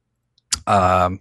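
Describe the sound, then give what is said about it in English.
Plastic clips pop as a phone screen is pried open: one short, sharp snap, followed straight after by a voice. “it's got little clips there. Once you get that popped, then you just slowly work it open.”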